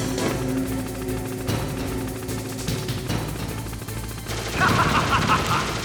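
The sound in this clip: Video game gunfire from an enemy shooting: bursts of shots over a steady tonal background score, swelling louder in the final second.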